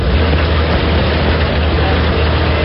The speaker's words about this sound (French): Après une courte halte, le véhicule tout-terrain redémarre.